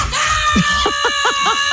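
Children screaming in a rapid series of short, high-pitched shrieks and squeals, repeated several times in quick succession at a loud, steady level.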